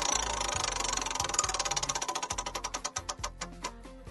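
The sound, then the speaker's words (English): A prize wheel spun for a game makes a rapid, even clatter of clicks as it turns. The clicks gradually slow and spread apart toward the end as the wheel winds down. “Let's get the wheel out here. And all right, let me give it a nice little spin.”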